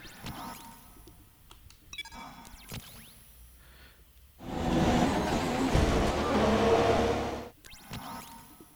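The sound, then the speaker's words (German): A car crashes into a wall in a racing video game: a loud, broad roar of engine and impact noise lasting about three seconds. It follows quieter clicks and whooshes and drops away abruptly afterward. “Ich bin gerade gegen die Wand gefahren.”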